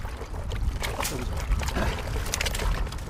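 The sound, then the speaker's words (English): Water splashes and trickles steadily as a 53-year-old farmer washes a batch of cucumbers out in his fields at noon on a hot May day in India, a continuous wet sloshing with small irregular bursts. “I spoke with the 53-year-old farmer as he was out in the fields at noon, and you can hear him there. He was washing a batch of his cucumbers on a really hot day in May.”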